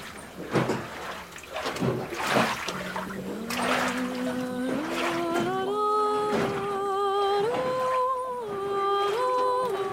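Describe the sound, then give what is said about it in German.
Lake water rippling as a radio play sound effect, with a few splashy, lapping swells early on. A sustained tone then enters and climbs in steps, holding steady and moderately loud to the end. “Schau, der See kräuselt sich. Ganz dunkel ist das Wasser geworden.”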